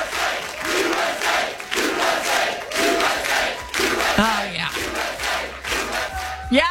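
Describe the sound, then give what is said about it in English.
A soccer crowd chants in unison, a loud mass of voices rising and falling in regular rhythmic pulses that continue without a break across the whole stretch. “I hope to hear this kind of chanting at SoFi Stadium tonight.”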